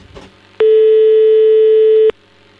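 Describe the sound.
One loud telephone tone plays while a call is placed, holding a constant pitch for about a second and a half and starting and stopping abruptly after a brief faint rustle.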